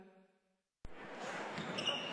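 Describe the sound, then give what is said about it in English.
A high school basketball game on a Friday night in an Iowa gym: after a brief fading tone and a moment of silence, a single sharp ball-bounce thud opens onto a loud, steady wash of crowd noise that holds to the end. “This may sound like a typical high school basketball game being played on a Friday night in Iowa.”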